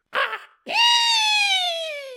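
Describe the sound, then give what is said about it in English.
A voice imitates a spooky shriek from the sky. A short breathy vocal burst comes first, then a loud, sustained, high, voiced wail that slowly falls in pitch. “the loudest shriek she's ever heard. I know that wasn't the loudest shriek.”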